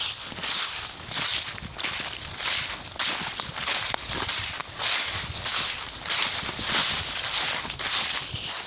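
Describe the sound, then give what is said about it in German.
Footsteps shuffling through dry autumn leaves on a forest path, a steady rustling crunch that carries on without pause and with no voices. “Richtig. Schlurfen durchs Herbstlaub.”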